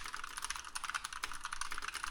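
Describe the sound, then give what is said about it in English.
Light typing on a loud, aggressive computer keyboard: a rapid, continuous stream of crisp clicky clacks with no pauses and no voices. “your keyboard, though, is so fucking aggressive. It's so loud. Like, here, I'm just going to, like, very lightly type, like, as if I'm sending you an email.”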